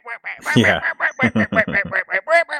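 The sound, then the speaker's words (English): A voice imitates startled ducks quacking in alarm after they had settled for the night: a rapid, choppy run of many short, nasal, loud quacks, evenly spaced and slightly uneven in pitch. “one of the ducks got startled, and then all of the ducks, after they had already gone to bed, then they all just started like freaking out.”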